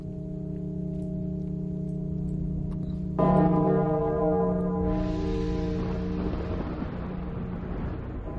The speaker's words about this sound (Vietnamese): Âm thanh như là tiếng chuông vang lên vọng ra xa, bay vút lên trên tầng không, bay đến cả vạn dặm quanh đây.